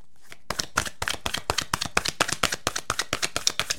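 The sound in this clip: Goddess oracle cards being shuffled, a fast run of many crisp, papery snaps and taps in a steady rhythm, fairly quiet and heard alone.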